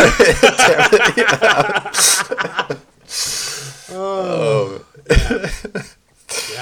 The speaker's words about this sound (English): Sorry, when I laugh too hard, I just cough.